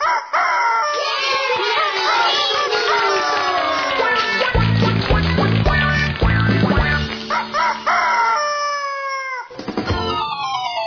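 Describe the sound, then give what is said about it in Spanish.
A rooster crows in a children's story song, giving strained, warbling calls with gliding pitch that ring out over loud, busy music. “Bartolito era un gallo que vivía muy feliz. Cuando el sol aparecía, Bartolito cantaba así.”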